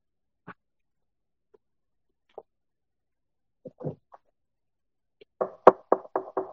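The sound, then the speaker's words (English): Knocking on a door, heard in a church sermon: a few scattered soft taps, then a quick run of several louder, sharp knocks near the end, with no talk over them. “Behold, I stand at the door and knock.”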